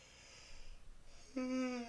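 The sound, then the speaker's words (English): A big yawn: breathy noise at first, then a steady, fairly loud voiced drone with a held pitch that lasts to the end. “Big yawn. It's 1:30. It's a big yawn.”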